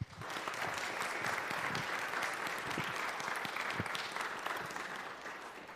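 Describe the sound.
A church audience at Chester Christian Church claps a warm welcome for a guest one morning. The dense, even applause holds steady throughout and eases slightly at the very end.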